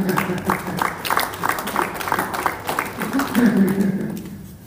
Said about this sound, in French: Acclamons pour le Seigneur.